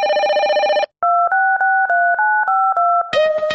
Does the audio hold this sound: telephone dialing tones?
yes

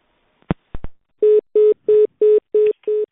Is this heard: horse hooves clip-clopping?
no

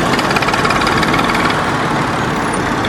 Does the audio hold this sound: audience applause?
no

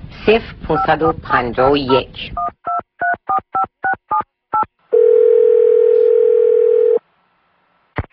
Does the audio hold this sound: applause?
no

